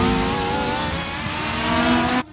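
A racing car heads for the pit stop on a wet, rainy track with worn tyres. Its loud, steady, high engine drone holds throughout, then cuts off abruptly at the end.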